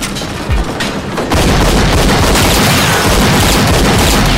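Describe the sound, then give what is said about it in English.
Gunfire aimed at a speeding red car cuts through a dense, continuous roar, with a few sharp booms. The level steps up partway through and stays loud to the end. “Mistaking the blowout for a shot, Superboy fires at the speeding red car, sparks flying from his front wheel.”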